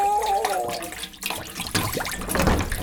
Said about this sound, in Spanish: Agua, agüita, llévame del río, llévame a casita.